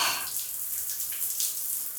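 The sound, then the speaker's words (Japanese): Water poured over someone's back in a bath, a soft, steady splashing hiss that runs throughout at low volume. “うちがお兄ちゃんのお背中、流したるで。”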